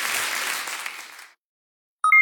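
A burst of applause in a Rock FM jingle: dense clapping cuts off abruptly into silence and is followed by a short run of bright electronic tones.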